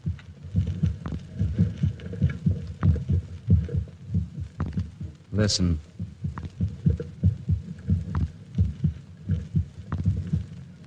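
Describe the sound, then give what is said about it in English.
A steady, low human heartbeat throbs in a regular, heavy rhythm, with a single word spoken briefly over it midway. “That sound is the first and last sound in your memory. It is the pulsating of a human heart.”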